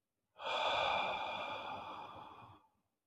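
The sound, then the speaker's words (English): A single long exhale during a calming breathing exercise: a soft, airy sigh that starts firmly, then fades gradually over about two seconds before stopping. No one speaks. “okay, you got the breath going out.”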